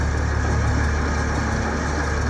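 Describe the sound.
The engine of a nearly new van cranking and running as fuel arrives, a steady loud low rumble with fast, even pulsing throughout.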